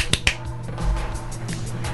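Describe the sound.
Sharp hand claps: two crisp, close-spaced smacks open the stretch, followed by a quieter background murmur.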